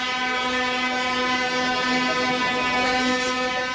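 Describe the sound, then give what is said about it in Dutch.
Tractor horns blaring at a farmers' protest in Brussels, a loud, sustained harmonic honking that stays continuous and steady for the whole clip. “En het bleef niet alleen bij die toeterende trekkers.”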